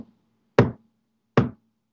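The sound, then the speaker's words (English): Sharp knocks sound in the middle of the night at 3 a.m. Two crisp, hollow raps stand alone in silence, about a second apart, with the tail of an earlier knock at the very start. “Three knocks. Just like that.”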